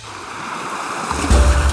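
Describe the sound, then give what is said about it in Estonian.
Water babbles in a steady, rushing wash of noise that grows louder, with a deeper rumble over the last half second. “Praegu tundub, et see mõnus vee sulin on natuke nagu narrimiseks,”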